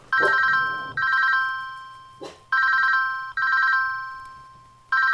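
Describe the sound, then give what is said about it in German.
An incoming call on a telephone, its bright electronic ring repeating in several short bursts with brief gaps between them. The ringing is loud and heard on its own. “Und da kommt ein Anruf offensichtlich.”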